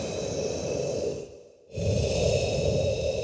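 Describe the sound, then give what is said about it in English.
A person takes a deep breath in a doctor's office after an exam. Airy breathing runs steadily, dips into a brief quiet pause, then returns as a fuller, louder breath. “Internalizing this, I take a deep breath.”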